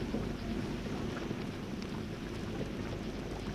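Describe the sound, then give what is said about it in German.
Rain mixed with hail falls in a soft, steady hissing patter over a faint low rumble, quiet and even from start to finish, with no voices. “Das Rauschen des Regens entspannt meine Nerven”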